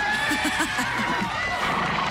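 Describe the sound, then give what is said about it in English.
A horse whinnies as a new horse and buggy goes up for bid, a rapid fluttering run of pulses that stays fairly loud over a busy background. “The next item up for bid, a new horse and buggy.”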